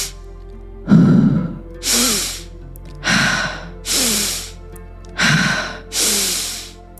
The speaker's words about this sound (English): And we're going to start the breath pattern in through the nose.